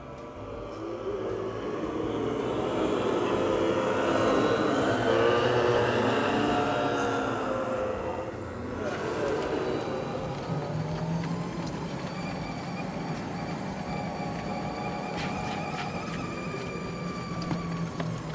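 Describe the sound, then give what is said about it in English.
A golf cart being driven, its motor giving a steady, moderately loud rumbling hum that shifts character about halfway through and then settles into an even drone. “You sure you know how to drive this thing well enough? It's a golf cart.”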